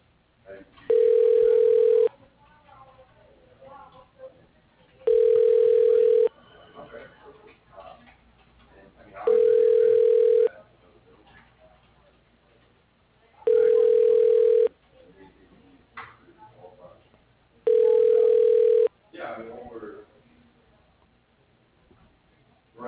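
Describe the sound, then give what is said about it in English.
A telephone line ringing while a call is transferred: five long, steady ringback tones at regular intervals, separated by quiet gaps with faint line noise. “For directions to our facility or all other calls, please dial 0 and an operator will assist you. Your call is being transferred.”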